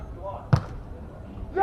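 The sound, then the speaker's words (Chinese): A volleyball jump serve struck hard, one sharp, heavy smack that stands out clearly over faint background noise, with a voice rising near the end. “大力的跳发，好发球”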